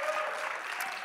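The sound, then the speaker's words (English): Audience applause for a pastor at a church service: a dense, steady wash of clapping for about a second, with no single claps standing out. “And let's give Pastor Dan a big hand.”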